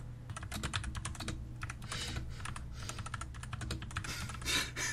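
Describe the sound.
Someone types on a computer keyboard while writing, producing a rapid, steady patter of quiet key clicks over a low background hum.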